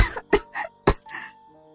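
A young woman coughs on the floor: a rapid series of several harsh, raspy coughs in close succession, loud at first and trailing into a weaker final hack.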